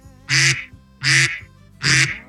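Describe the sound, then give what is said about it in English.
A duck alarm sound effect plays three loud, nasal quacks, evenly spaced with short silences between them. “Duck alarm's back. That means that it is time.”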